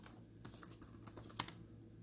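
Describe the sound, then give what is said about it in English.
Fingers type on a computer keyboard, a few soft, quick clicks and taps in an uneven burst, faint overall with one sharper keystroke standing out near the end. “So what I'm going to type in is message board sites for stocks.”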